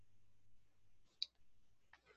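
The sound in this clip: A mouse clicks the save role button in a software screen, one sharp, faint click standing out from near silence.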